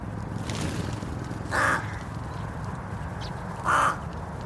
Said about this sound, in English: About three quarters of a mile away up in the village, there's a rookery which is just jammed back full of these very smart, very argumentative, highly sociable birds.